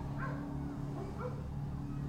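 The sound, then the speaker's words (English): Dogs bark in the distance near jungle below a low mountain range. A couple of faint yipping barks rise over a steady low hum, with no talk. “There's dogs over there.”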